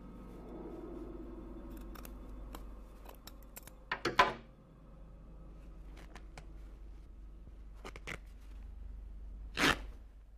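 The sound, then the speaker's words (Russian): Scissors cut into the back of a dress and the fabric is torn, heard as faint snips and scattered clicks with louder bursts of tearing cloth near the middle and the end. “Крис ножницами надрезает платье сзади и немного разрывает его на спине.”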